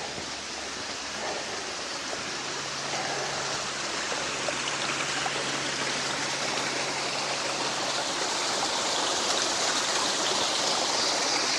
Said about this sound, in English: Nice little stream.